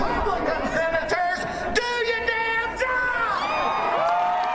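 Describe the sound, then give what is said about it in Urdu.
Federal employee union members protest the government shutdown outside the White House, their loud crowd voices shouting and chanting together, with talking mixed in. “اس مظاہرے کے دوران مظاہرین نے حکومتی shut down کے خلاف نعرے لگائے۔”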